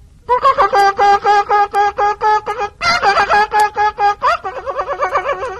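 A hen clucks in a rapid, steady rhythm of many loud, nasal clucks. Near the end the clucks turn into a quicker, softer run, with no talk.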